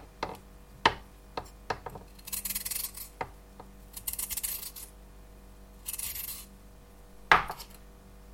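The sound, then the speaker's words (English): Carrot being peeled: a few rasping scrapes of the peeler along the carrot, separated by sharp clicks and taps, all fairly quiet. “And then I also have a carrot. And I'm going to peel that.”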